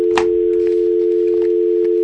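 Telephone dial tone: a continuous, unbroken hum held at one constant pitch, with a brief click near the start.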